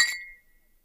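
A single bright glass clink as glasses touch in a toast, ringing briefly and fading within a fraction of a second.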